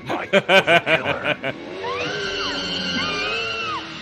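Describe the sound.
A vampire motorcycle from a horror movie revs and drives off by itself, its engine whine climbing and dropping after brief vocal sounds at the start.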